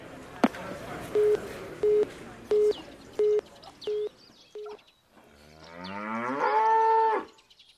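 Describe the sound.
Cattle mooing in a cowshed: one long, loud, drawn-out moo at the end, preceded by a sharp click and six short, evenly spaced electronic beeps.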